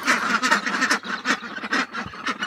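Ducks quack loudly and rapidly in a duck house, a lowered chicken house where chickens also scratch for food; many overlapping quacks form a dense, continuous chorus with no talking.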